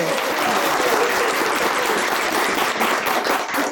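Studio audience applause welcoming a comedian guest onto a television show: loud, dense clapping mixed with a few cheers, sustained evenly for nearly four seconds.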